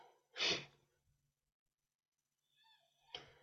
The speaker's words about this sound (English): Now let's take a nice deep breath in.